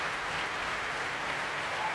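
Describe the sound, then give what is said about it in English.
A capacity concert audience applauding: a smooth, continuous roar of many hands, moderately loud and unchanging across the short stretch. “And that, ladies and gentlemen, is the sound of a capacity audience who have very much enjoyed themselves.”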